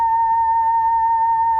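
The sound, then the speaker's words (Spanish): A steady electronic tone comes from a small box with a photodiode on top that turns sunlight into sound. One loud, constant pitch with a faint higher overtone holds unchanged throughout. “Lo que acaban de escuchar es la luz del sol. Es muy sencillo, es simplemente una caja que consta de un fotodiodo que está en la parte superior y que transforma la iluminancia del sol en un sonido.”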